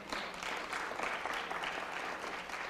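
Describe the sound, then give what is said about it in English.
A church audience applauds after a sermon, producing a steady wash of dense clapping that stays even and sustained throughout, with no speech over it. “Give the Lord a big hand for that.”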